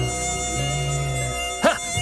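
A fly buzzes in a continuous, steady drone with a fairly even pitch, persisting throughout without voices.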